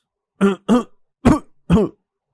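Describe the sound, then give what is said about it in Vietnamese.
Harsh, voiced coughing from a man who has just taken a drag on a cigarette: four short, loud bursts in quick succession with uneven gaps between them, and no talk. “chỉ mới hút một hơi, hắn đã phải ho sặc sụa”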